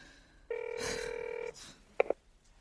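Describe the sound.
A telephone ringing as a call is placed: one steady electronic ring tone lasting about a second, followed by two brief, sharper beeps, all fairly quiet with no talk.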